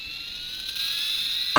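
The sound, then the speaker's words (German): A toy comic-rocket keychain that doubles as a flashlight makes its launch sound, a thin, steady, high-pitched electronic whine that steps up slightly partway through and ends in a short, sharp burst. “Und zwar ein Schlüsselanhänger, eine kleine Comic-Rakete, die auch zeitgleich eine Taschenlampe ist. Und Achtung, jetzt pass auf.”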